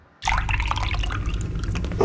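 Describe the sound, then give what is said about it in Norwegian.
Wet slurping and gurgling of someone drinking a glass of juice, starting after a brief silence and running on as a steady, moist, liquid sound. “Står du og drikker kostråd?”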